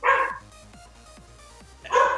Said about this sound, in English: my dog starts barking in the background